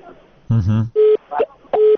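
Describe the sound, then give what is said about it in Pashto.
Telephone line tone after a caller's call drops during a radio phone-in: a brief burst of voice, then two short, steady mid-pitched beeps separated by a few crackly sounds. “ستاسو ټلیفون قطع شو”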